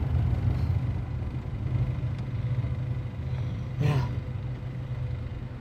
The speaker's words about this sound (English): Liam's car crawls to a halt by some railway arches, a stone's throw from Neil's bar.